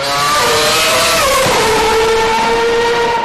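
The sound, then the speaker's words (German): A Formula 1 race car accelerates with a loud, continuous, high-pitched engine whine. Its harmonic tones hold steady, then drop in pitch partway through and stay lower to the end, with no voices. “Der braucht dafür nämlich 2,5 Sekunden und ist dabei auch noch viel lauter. Zum Vergleich, der Formel-1-Wagen”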